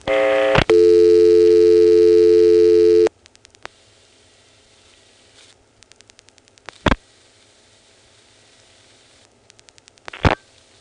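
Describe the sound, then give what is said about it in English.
Telephone line sounds after dialing 1 into a trunk to the Potomac Hospital PBX. A loud steady tone runs for about three seconds and cuts off, followed by faint scattered clicks and two sharp bursts of tone. “When we dial a 1, we will go into the trunk to Potomac Hospital, and then we'll sit there and wait for the PBX to time out.”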